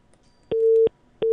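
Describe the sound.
A busy tone sounds after a phone call is cut off. It is a steady mid-pitched beep, repeated with even gaps: one full tone, then a second that runs past the end.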